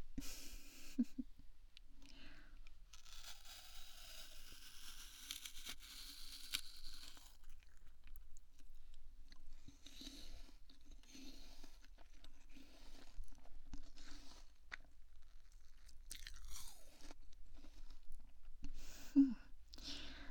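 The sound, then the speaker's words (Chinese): Someone chews and crunches a sweet apple, giving soft, wet crunches and bites at irregular intervals across a long, quiet stretch, with faint breathing in between. “这苹果好甜，忽然舍不得喂你了”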